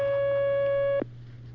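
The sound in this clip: A telephone line tone as an incoming call connects on a phone-in line: a steady, single-pitched buzzing tone holds for about one second, then cuts off abruptly, leaving a low constant hum underneath.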